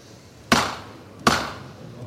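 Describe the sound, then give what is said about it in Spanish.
A hammer knocks twice, about three-quarters of a second apart, each a sharp loud wooden crack with a short decay, marking the signal for the bearers of a Holy Week procession float. “cuando suena el martillo”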